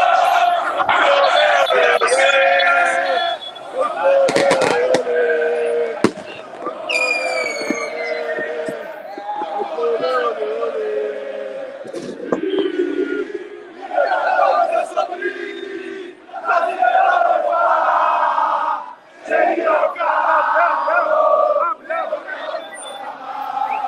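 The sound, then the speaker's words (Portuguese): Palmeiras football fans in front of the club's training centre chant and shout as a dense, loud crowd, with rising whoops and cries over a steady, continuous roar of many voices. “Vixe, a torcida está fervorosa na frente do CT.”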